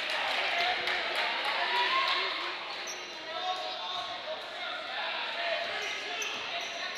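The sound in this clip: A basketball is dribbled on the court during a boys' high school game between Exeter and Elizabethtown, making many crisp, repeated bounces with a steady rhythm while a commentator's voice talks over the court noise.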